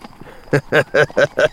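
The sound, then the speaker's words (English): Horses' hooves clip-clop as riders travel through the night: five loud, evenly spaced clops in quick succession follow a few fainter ones. “Three-Fingered Manning and Waco Jones were riding through the night, their way lighted by a very bright full moon.”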